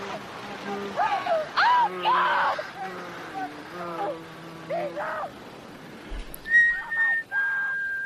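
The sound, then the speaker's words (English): A man whistles a wavering tune of gliding and held notes at moderate loudness, ending on a couple of long, steady high tones. “What's he whistling? I don't know, can you tell?”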